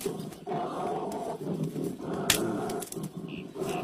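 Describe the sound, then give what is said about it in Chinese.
An angry bear's roar, made as a radio-drama sound effect, rumbles in rough, gravelly growls that run almost continuously, with a couple of brief breaks, and no voices. “熊大哥，别生气。”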